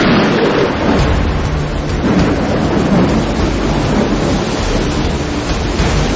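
Storm at sea around a sailing schooner: loud, steady wind and crashing waves form a dense, continuous roar with deep low rumble throughout, without voices.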